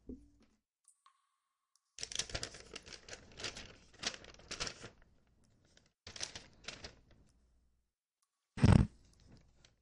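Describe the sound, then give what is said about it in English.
An envelope holding a letter is opened slowly by hand: crisp paper crinkling and tearing in several irregular bursts with pauses between, followed by a short, louder knock near the end. “Sometimes your hands are great tools, but nothing's worse than getting a paper cut. So I will open it slowly.”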